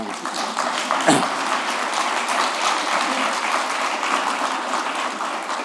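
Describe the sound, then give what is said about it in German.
Audience applause at an academic lecture event, a steady, dense wash of many hands clapping that holds at an even level for several seconds without clear breaks. “Sie können auch kurz klatschen für”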